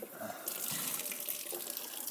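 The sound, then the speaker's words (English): Water runs from a kitchen tap to rinse out a Vitamix blender container. A steady, bright splashing hiss continues alone throughout. “Now I'm going to rinse it out”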